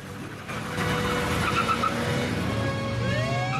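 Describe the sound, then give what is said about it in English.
A police car roars away with its rear wheels spinning on the road. The engine surges loudly after a moment and stays at full power, and high tire squeals rise in pitch toward the end. “He roars away with the rear wheels spinning on the road.”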